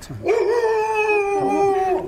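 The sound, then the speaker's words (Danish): A very large dog, chained in a farm courtyard, lets out one long, loud, continuous howl. The whine holds steady and wavers slightly in pitch for about two seconds, with no talk. “bliver vi mødt af en kæmpe stor hund.”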